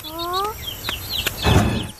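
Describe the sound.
Chicks cluck and peep in a rapid, irregular string of short, high chirps, with a louder scuffle of movement near the end.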